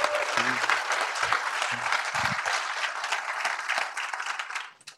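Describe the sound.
An audience at a tech meetup applauds the volunteers who run it. The clapping is a dense, sustained wash that stays steady, then fades away at the end.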